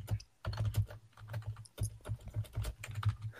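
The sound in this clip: Rapid, irregular keystrokes clatter on a computer keyboard: many quick taps in short bursts separated by brief pauses, with no talking.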